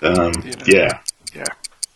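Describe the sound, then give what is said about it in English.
Steady clock ticking, crisp, evenly spaced high clicks roughly a quarter second apart, running beneath people talking and continuing on its own once the talk stops. “Where's the ticking? The ticking's right over there, yes, and that is the Doom Clock.”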